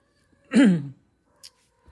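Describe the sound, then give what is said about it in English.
A house cat gives a single clear meow that slides down in pitch as it fades, followed by a couple of faint soft clicks in near silence. “My cat is driving me crazy.”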